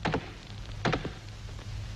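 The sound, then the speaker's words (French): Ritual knocks strike the rostrum to open the United Nations Conference on International Organization: a few dull, woody thuds, spaced apart and fairly faint, with near-silence between them. “M. Stettinius va ouvrir les débats, et il le fait en frappant sur la tribune les trois coups rituels du lever de rideau.”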